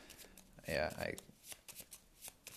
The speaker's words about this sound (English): I'm going to shuffle the Night Gaunt back into the encounter deck and draw something else.